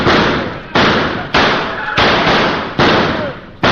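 Six gunshots ring out in a radio drama, each a loud, sharp blast with a long decaying roar, coming in fairly even succession.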